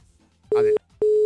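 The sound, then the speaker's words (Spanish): Telephone busy signal after a dropped call: two short, steady low beeps of equal length, separated by a brief pause, loud over faint line hiss. “Se cortó la llamada, se cortó. Vuelvan a intentarlo.”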